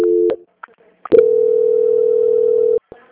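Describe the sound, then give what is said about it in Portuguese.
A telephone call transfer tone on a bank customer-service call: a brief two-pitch beep, a short gap with faint clicks, then one long steady mid-pitched tone lasting over a second before it cuts off abruptly. “Eu vou transferir a ligação, tudo bem? Tudo bem. Transferência.”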